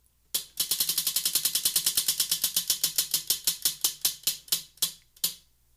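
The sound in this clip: Prize wheel with fourteen spaces being spun for a hot sauce game: a rapid train of sharp plastic clicks that gradually spaces out and slows before stopping, heard alone.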